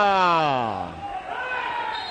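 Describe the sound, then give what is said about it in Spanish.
Football coach Bordalás yells from the touchline during a Getafe match, a single loud, strained shout that falls in pitch and fades into background noise. “Mira, es Bordalás ese grito, ¿eh? Está aquí encabritado.”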